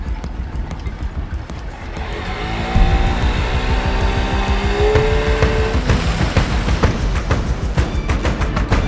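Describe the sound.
Engine of a scooter being ridden in a film scene: a loud, continuous motor drone that grows stronger after about three seconds, its whining tone climbing as the vehicle speeds up, with no talk over it.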